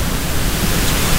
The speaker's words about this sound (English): Hear that? That's the sound of Way FM off the air.